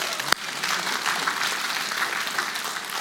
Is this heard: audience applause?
yes